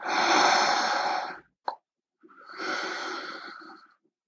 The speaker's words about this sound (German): Und lass uns gemeinsam nochmal einatmen.